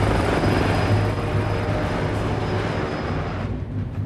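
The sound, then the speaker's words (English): Helicopter lifting off from a rooftop, its rotor and engine roaring loud and steady with a low throbbing drone and a thin high whine, easing slightly toward the end. “boards a waiting helicopter, which then takes off.”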